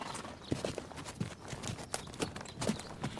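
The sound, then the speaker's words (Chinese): Horse hooves clip-clopping as a rider approaches: a quick, uneven stream of many hard hoof strikes over a dense, rushing background. “关羽远远地看见一个人骑着马走来了。”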